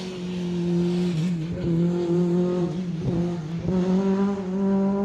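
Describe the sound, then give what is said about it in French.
The engine of a Peugeot 306 Maxi rally car warms up on a damp track. It drones loud and steady with a strong low hum, broken by a few sharp blips and shifts in the revs. “un des rares possesseurs de 306 Maxi, est en train de faire chauffer justement cette 306 sur une piste un peu humide. C'est que ça fait du bruit hein, son truc.”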